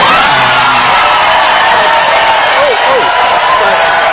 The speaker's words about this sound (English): And the crowd goes wild. Really? At that? Seriously, people?